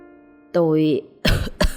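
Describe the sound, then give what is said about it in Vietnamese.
An old man's coughing fit: a short strained vocal sound gives way to two harsh, forceful coughs, loud and rough, each a burst of breath with a brief gap between them. “ông lão đưa tay lên ôm ngực, ho sù sụ từng hơi dài”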